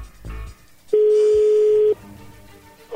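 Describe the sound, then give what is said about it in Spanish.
A telephone tone as a number is dialed: one steady, mid-pitched beep lasting about a second, standing out clearly against a quiet background. “a ver, ahí le estamos marcando”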